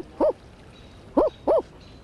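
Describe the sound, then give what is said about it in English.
Screech owl calls given while raccoons were nearby: three short, harsh, nasal bursts, two close together after a longer gap, each clear against a quiet background. “The screech owl trill goes sort of, but when the raccoons were around, they were up and they went,”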